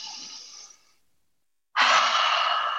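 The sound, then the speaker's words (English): A deep breath: a soft, breathy rush of air tapers off into a short silence, then a stronger, louder airy breath starts abruptly and holds steady, with no speech. “And so let's take a deep breath”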